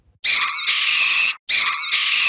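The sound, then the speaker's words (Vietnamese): Eerie, piercing screams in a horror story: two long, shrill, high-pitched cries, each lasting about a second, separated by a brief silence and heard alone. “Trung hoảng hồn lùi lại phía sau, tiếng kêu ghê rợn, sắc lẹm như xé cả màn đêm.”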